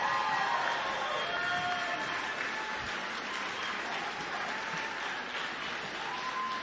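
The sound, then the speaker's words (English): Audience applause in a standing ovation: fairly faint, continuous clapping at a steady level from start to end, with no distinct voices. “How about that, y'all? Standing O.”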